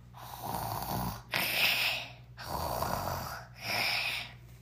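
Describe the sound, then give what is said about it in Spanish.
Snoring heard through a wall: slow, steady breaths, each a long rasping swell that rises and fades in a regular rhythm, with four drawn-out cycles in all. “Escucharon por la pared. Y entonces dijo: "Ah, está roncando."”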